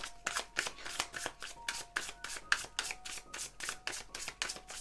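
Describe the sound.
Tarot cards being shuffled before an advice card is drawn: many quick, papery riffles in a brisk, regular rhythm, soft and alone with no voices.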